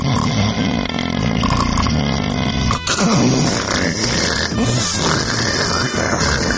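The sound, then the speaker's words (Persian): A voice imitates snoring, with a rasping, buzzing noise on both the inhale and the exhale. The loud, sustained imitation runs almost without a break. “برای شما توفیق دارید که از دو صدای جداگونه در یک خروپوف بهره مند بشید.”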